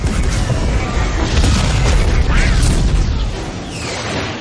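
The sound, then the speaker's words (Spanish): Booming explosions and weapon blasts as X-wing fighters fire torpedoes at an oscillator in a space battle, a dense, loud, continuous roar of bursts and crashes with no clear pauses. “Los ala X hacen una pasada disparando torpedos al oscilador.”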